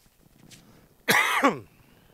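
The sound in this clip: A short, harsh cough from a tickle in the throat bursts out loudly once in a brief raspy fit. Near-silence comes before and after it.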